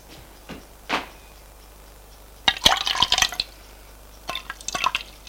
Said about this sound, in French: Puis, il versa le chocolat dans un bol.